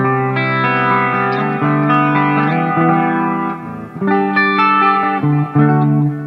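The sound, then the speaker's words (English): Clean electric guitar through chorus, a Keeley compressor and delay, playing sustained, shimmering chords with a slightly sour tuning. The notes ring smoothly and pause briefly midway before a fresh set of chords rings out. “I also have like a chorus on there. I have like a Keeley compressor on there as well, and a delay”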